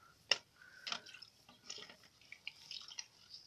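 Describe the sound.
Faint drips and light clinks of water as kitchen utensils are washed with soap, scattered irregular taps with quiet gaps between them.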